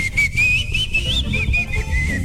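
Someone whistles a song melody: one clear, tuneful whistle that moves up and down in pitch without a break, over steady low background noise.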